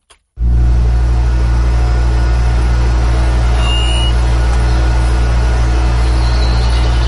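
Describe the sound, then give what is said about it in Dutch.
The refrigeration unit motor of a delivery van runs hard in hot weather, a loud, steady droning rumble with strong low tones. It starts abruptly after a brief click and holds unchanged throughout. “De koelmotor van mijn bestelbus.”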